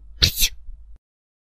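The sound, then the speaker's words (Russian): A voice imitates a chick's weak sneeze: one short, sharp burst with a quick two-part push, followed by a brief soft tail that ends in silence. “Хоть и слабый вышел чих, но все же вышел.”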